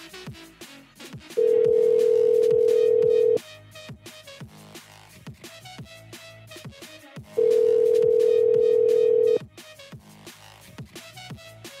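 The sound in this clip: Two long, steady ring tones on a phone call to a home number, each lasting about two seconds, separated by a gap of faint clicks and clatter.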